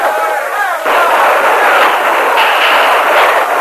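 Dense gunfire from mounted riders attacking troopers in a drama sound effect, a loud, continuous crackling barrage of shots that barely lets up for the whole stretch.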